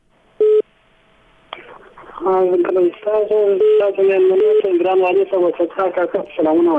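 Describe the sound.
A telephone line connecting for a radio phone-in caller: a short loud beep, a faint steady line tone, a click, then a caller's voice talking over the phone line.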